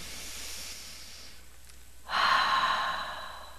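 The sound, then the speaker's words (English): A slow, deep breath is drawn in as a soft, airy hiss that swells louder partway through and then eases off, heard alone without talk. “But let's just take a slow, deep breath in.”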